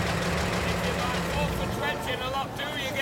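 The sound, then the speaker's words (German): A taxi engine rumbles steadily as the cab pulls up on 158th Street before a long white apartment house, a continuous mid-pitched hum beneath a speaking voice. “In der 158. hielt das Taxi vor einer langen weißen Apartment-Haustorte an.”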